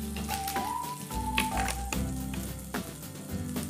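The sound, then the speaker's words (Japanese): Butter melts and sizzles in a heated frying pan, giving a quiet, continuous crackling hiss. “さあそれからフライパンにバターを入れて火をつけます。”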